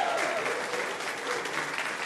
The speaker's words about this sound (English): Give a round of applause.